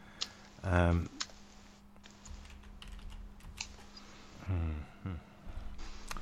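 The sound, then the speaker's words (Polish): Keys are tapped to enter a phone number, giving a scattered series of light, quiet clicks. Two short bursts of voice break in between the taps. “Teraz to, co słyszycie, to jest, jak wklepuję tenże numer.”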